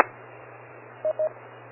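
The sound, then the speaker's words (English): Two short, identical electronic beeps on an amateur radio emergency net, close together and clear, over a quiet background of low hum and faint static. “no, all I heard was the beep”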